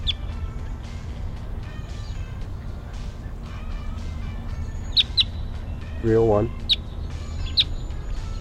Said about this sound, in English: Wild bird's coming down. It's an orange, orange male.